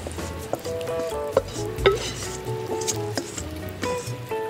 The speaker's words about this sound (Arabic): هلأ نقلبهم نخليهم هيك على نار هادية يستووا مع بعضهم. جانس بندورة مع البصل مع التومة مع البهارات.